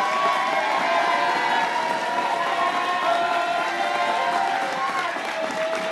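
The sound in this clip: A crowd cheering and applauding as it stands to welcome a pastor with a Texas-style welcome, a sustained wash of clapping and cheers that stays loud and even throughout.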